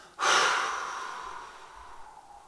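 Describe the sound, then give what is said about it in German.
Deep exhale during a guided breathing exercise: one long, breathy outflow of air that starts abruptly and fades slowly over about two seconds, heard alone. “Und wenn du gleich ausatmest, Verbinde dich mit aller Kraft und Präsenz nach unten. Ausatmen.”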